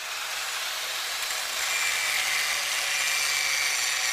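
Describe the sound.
A grinder cuts down a metal edge that was rubbing inside a motorcycle's primary cover, making a steady, harsh high-pitched grinding hiss that grows slightly louder midway, with a thin whining tone running through the latter half.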